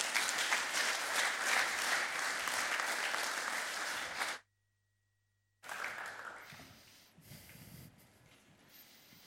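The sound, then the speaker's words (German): Audience applause welcoming two performers, a keyboard player and another musician: dense, loud clapping for about four seconds, cut off abruptly into silence, then a quieter, thinner stretch of sound that fades lower. “Und ich freue mich ganz, ganz riesig und ihr dürft jetzt mit einem Riesenapplaus begrüßen.”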